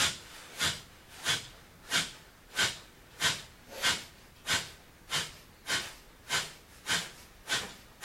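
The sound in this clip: Kapalabhati yoga breathing, a regular train of sharp, forceful exhalations through the nose, each a short hissing puff at an even rhythm of roughly one and a half per second, with no talking between them.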